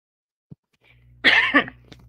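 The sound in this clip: A short, dry cough from an irritated throat: a single rough burst with two quick pulses, loud and alone after a faint click and a moment of quiet.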